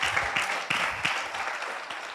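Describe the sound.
Audience applause at a talk about getting older: a faint patter of many hands clapping that swells in a few waves and gradually thins out.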